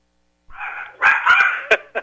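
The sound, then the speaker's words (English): A dog barks excitedly: a short whine gives way to a run of yelping barks, then two sharp final barks, loud and alone without talk. “My dog's going crazy here”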